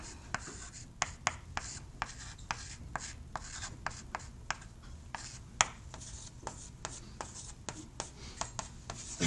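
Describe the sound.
Chalk or marker writing on a board during a lecture on Lagrange equations: many quick taps and scratchy strokes in an irregular rhythm, fairly quiet, with no talking.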